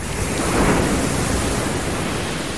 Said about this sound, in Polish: To polska plaża? A jak myślisz? No, brzmi nawet jak polska.